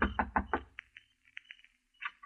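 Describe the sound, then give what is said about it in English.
Knocking on the door of a house in the hills at night: four firm, evenly spaced knocks in quick succession, then a scattering of quieter, lighter taps, with no voices. “I kept knocking.”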